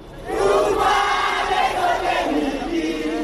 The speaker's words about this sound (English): This is the sound of hundreds of young people dressed in black singing the Kenyan national anthem in Nairobi.